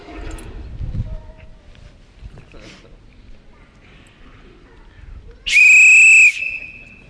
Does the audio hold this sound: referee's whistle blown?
yes